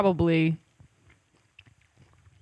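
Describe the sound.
Salty snacks are chewed with soft, faint crunches scattered irregularly, following a brief spoken voice at the start.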